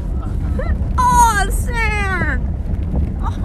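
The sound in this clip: Wind buffets the microphone in sand dunes with a steady low rumble, while a high voice talks over it.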